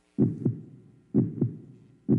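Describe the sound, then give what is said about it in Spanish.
A human heartbeat: two low, thumping lub-dub double beats in a steady, slow rhythm, with a third beat starting at the end, each pair a dull thud followed quickly by a second, sharper knock. “¿Qué siente? ¡Claro! Unos latidos.”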